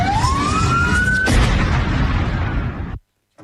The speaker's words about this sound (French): Voilà, donc c'était un son effectivement très court. Je ne savais pas que c'était aussi court que ça. C'était le son de l'explosion.